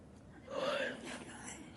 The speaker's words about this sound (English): That he just yawned out. Are we boring you?